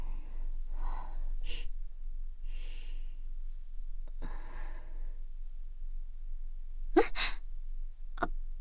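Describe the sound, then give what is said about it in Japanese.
Sniffling through a stuffy nose: a few sharp, wet sniffs separated by quiet breathing and long pauses, with a quick pair of loud sniffs near the end. “最近鼻の調子が悪くてすすっちゃうことが多いの。”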